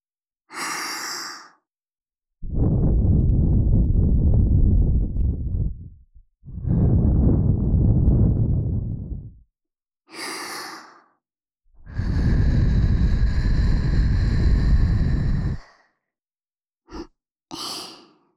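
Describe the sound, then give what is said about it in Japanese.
Air blown hard into the microphone makes three long, loud, rumbling blasts, separated by shorter, thinner hissing breaths. “強く吹くよ。”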